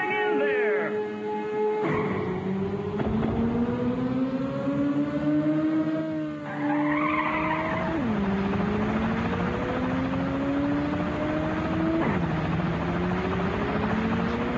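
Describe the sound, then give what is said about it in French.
Racing car engines roar in a racing video game, loud and continuous, the pitch repeatedly climbing and then dropping sharply as gears shift. “Ridge Racer est incontestablement la meilleure simulation de course automobile du moment.”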